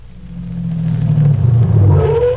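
A car engine as a vehicle pulls up, a low, rumbling drone that swells steadily louder through the short clip, with no clear stop heard at the end.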